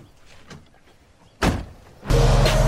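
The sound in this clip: A car door as a man gets into the driver's seat: a short, sharp thud after a quiet lead-in, then a louder, steady mechanical hum that holds to the end.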